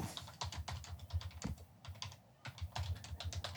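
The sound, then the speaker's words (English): Rapid typing on a computer keyboard, many quick light key clicks in an uneven stream with a brief pause midway, faint and alone without voices. “You really have to type all that?”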